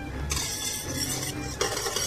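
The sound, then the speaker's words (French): Stirring of water and grenadine syrup in a saucepan gives a steady, hissing swish that runs throughout, with slight scrapes and small clinks of the utensil against the pan. “Pour réaliser des spaghettis, mélangez dans une casserole 400 g d'eau avec, par exemple, du sirop de grenadine.”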